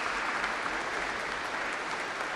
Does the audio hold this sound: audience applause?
yes